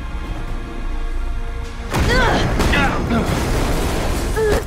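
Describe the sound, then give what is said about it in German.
A wall explodes in a Resident Evil 3 audio drama: a sudden loud burst partway through after a quieter stretch, followed by rumbling debris with voices crying out over it. “Wand explodierte. Jill wurde von Nikolai weggeschleudert.”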